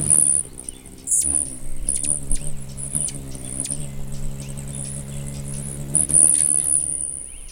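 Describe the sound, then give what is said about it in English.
Rapid high-pitched chittering squeaks from three or four rufous hummingbirds at a feeder in spring, calling throughout in bursts over a steady low hum. “The sound of spring, the rufous hummingbirds are here, aren't they? These are about three or four of them at my feeder.”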